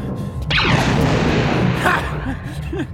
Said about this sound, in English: gotta shoot the lock.